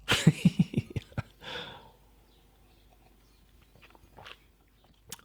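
Biting and chewing on an artificial-smelling sweet once sold as a medicine: a quick burst of crisp, crunchy bites, then a breathy exhale and quieter, scattered mouth sounds.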